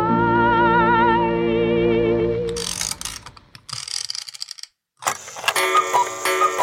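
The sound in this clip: Mechanical clockwork sounds fill a clock workshop. A sustained, wavering harmonic tone gives way to rapid ratcheting clicks and whirring gear noise, then a brief silence, and then more bursts of busy clicking.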